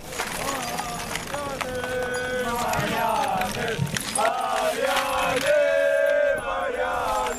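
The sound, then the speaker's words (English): Crowd noise in a city square after a Croatian football team's defeat, recorded from a moving bike: many overlapping voices and calls stay loud and continuous throughout. “This is how the square sounds after the defeat of the Croatian football team. Recorded while riding a bike.”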